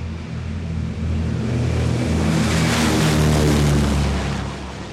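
A Fortress bomber's engines roar during takeoff, a dense steady drone that swells loudly after the first second. It holds strong before easing slightly at the end, with no voices.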